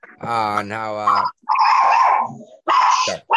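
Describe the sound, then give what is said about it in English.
A Chihuahua growls, whines and yips in three high-pitched, strained bursts separated by short gaps, with some wavering in the tone. “The fuck is that? That's his dog. That's Piggy. Oh my god. Is it dying? That's attack Chihuahua.”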